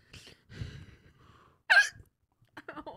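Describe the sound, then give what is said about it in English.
A single sharp, loud hiccup bursts out between soft, breathy sobbing sounds from someone who is crying. “I have the hiccups and I'm crying.”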